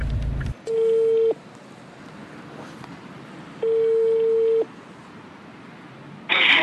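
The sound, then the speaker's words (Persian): Ringing tone of an outgoing telephone call: two long, steady mid-pitched beeps, each lasting under a second, separated by a few seconds of quiet line hiss. “اتفاقا شماره شون با هم دارم، الان بهشون زنگ میزنم.”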